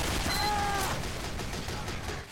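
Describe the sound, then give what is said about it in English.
A level 1 turret's small gun fires in a video game, a faint series of rapid shots over a noisy background. “And then Santa Hoovy's turret killed me. So yeah, the turret at level 1 it has a small gun.”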